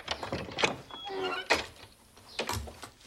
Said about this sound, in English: Opening a large slat door, Amelia steps into the barn.